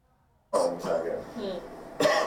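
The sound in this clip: Harsh, throaty coughing comes from a person in a few bursts, fairly faint overall, with a short pause before the final cough.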